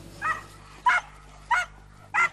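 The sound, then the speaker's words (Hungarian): Four loud, evenly spaced barks come from hunting dogs during a forest bear hunt. Each bark is short and sharp, with quiet gaps between them. “A keresésben a ma reggel stábja is részt vett. Vadászkutyákkal járták a környékbeli erdőket órákon át.”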